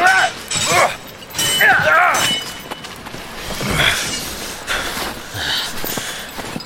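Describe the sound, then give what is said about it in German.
Steel blades clash in a fight in an icy land, with sharp metallic crashes and impacts recurring throughout, voices sounding between and over them. “Und wieder erklang der scharfe Klang von Stahl über dem eisigen Land. Wie die Kriegsgötter selbst fielen die beiden übereinander her.”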